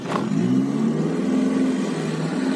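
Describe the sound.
A car engine drones steadily while driving, with a low, even hum and a faint mid-pitched tone running through it at constant loudness and no talk.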